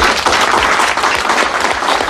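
Audience applause at a meeting: a dense, steady wash of many hands clapping together, holding at an even loudness for the whole two seconds with no voices standing out.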